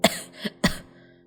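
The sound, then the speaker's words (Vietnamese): An old man coughs in a short fit: three harsh, throaty coughs, the first and last the strongest, with a weaker one between, then a quiet breathy tail. “Nói đến đây, ông lão đưa tay lên ôm ngực, ho sù sụ từng hơi dài.”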